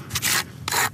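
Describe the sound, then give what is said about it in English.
A plastic snow scraper scrapes the rough, cement-crusted base of a polished granite headstone in a cemetery, making two rasping strokes, each a dry, gritty rub of about a quarter second, separated by a short pause. “using a plastic snow scraper on the rough base of a polished granite monument”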